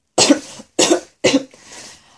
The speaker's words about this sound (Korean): 그리고 기침을 했어요.